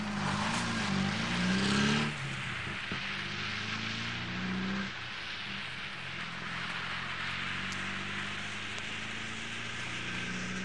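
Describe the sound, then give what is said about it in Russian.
A car reversing, turning around and driving away on a road, its engine droning loudly and steadily throughout, with the tone shifting around two seconds and again near five seconds before settling into an even, slightly softer hum. “Оборачивается, машина сдает назад, разворачивается, уезжает.”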